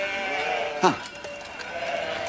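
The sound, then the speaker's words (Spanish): A flock of sheep bleats with overlapping, wavering calls throughout. One louder, quavering bleat stands out near the middle. “Aparta a las ovejas.”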